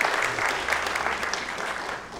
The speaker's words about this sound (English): Thank you so much, children, you've done an amazing job. Well done. Shall we give them all a round of applause?